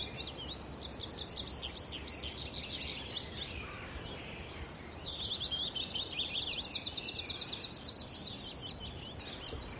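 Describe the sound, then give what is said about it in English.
Tree pipit song, bright high-pitched phrases of repeated notes: a varied run at first, then a long rapid trill that builds into loud, even pulses near the end, heard alone over a soft background. “Almost too much bird life to try and keep up with here. There we go. Tree pipit.”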